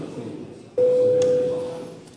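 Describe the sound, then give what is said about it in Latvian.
A parliament voting bell sounds as a single steady electronic tone. It starts abruptly, holds level for under a second and cuts off cleanly, with faint background murmur around it. “Lūdzu zvanu.”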